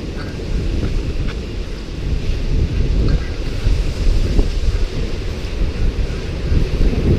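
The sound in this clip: Wind and surf on a Pacific Ocean shore make a loud, steady roar. Gusts buffet the microphone throughout, and no separate wave crashes stand out.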